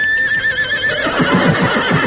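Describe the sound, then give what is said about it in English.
A horse neighing: one loud whinny opens on a high, wavering tone and breaks into a rapid series of pulsing, lower-pitched bursts, heard alone without talk. “I had no idea they sounded so much like horses.”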